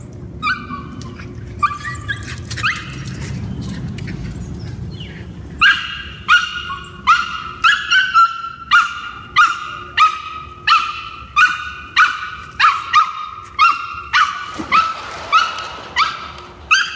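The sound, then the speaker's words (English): A rescued street dog barks in a steady, evenly spaced series of many sharp, mid-pitched barks that begin partway through, after a quieter stretch of lower background noise. “that's our dog Level. We adopted him, well, we really rescued him from the streets.”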